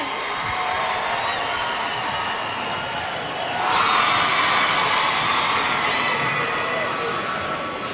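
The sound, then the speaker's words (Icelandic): Crowd cheering loudly for a singer at an evening concert, a dense, sustained roar that swells a little louder midway and stays steady to the end. “Má ég heyra brjálu fagnalætið fyrir Jóni Jónssyni?”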